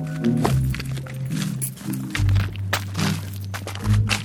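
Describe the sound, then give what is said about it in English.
Crunching footsteps on a loose road of chunky gravel and broken rock, a patchwork of pavement and potholes. Several uneven steps grind and thud against a low rumble. “That's the sound of the loose road. Which sounds like I'm walking on rocks, which is basically what it is. It's in chunks.”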